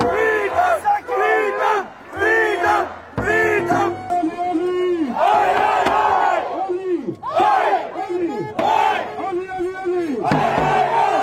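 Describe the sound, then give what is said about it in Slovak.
A protest crowd against COVID-19 vaccine mandates in Australia chants "freedom" alongside a typical Australian sports chant, many voices shouting in loud, rhythmic bursts with brief gaps between phrases. “Ako budete počuť, slovo sloboda sa ozývalo popri typickom austrálskom športovom pokriku.”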